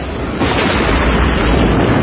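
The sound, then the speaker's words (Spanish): A heavy, continuous explosive roar as a German cannon shell hits a Russian tank during a battle among earth and snow, loud and dense throughout with no pause. “El cañón alemán acierta sobre un tanque ruso.”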